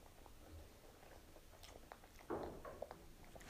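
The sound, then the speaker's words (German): Soft, wet chewing of an orange-flavoured sweet, with quiet squishy bites and one firmer crunch partway through. It is faint overall, with no talk. “Okay, wir essen den letzten Orangenen.”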